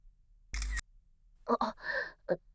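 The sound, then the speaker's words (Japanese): A camera shutter clicks once in a short, crisp snap, followed moments later by soft, breathy vocal sounds from a young woman. “じゃ、何？今のカメラですよね？何勝手に。証拠写真？”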